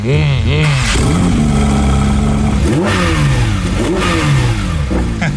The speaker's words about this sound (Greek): Ο κινητήρας έχει ένα χαρακτηριστικό μεταλλικό ήχο που ανεβάζει την αδρεναλίνη χωρίς να χρειάζεται να πηγαίνεις με ηλικιώδη ταχύτητα.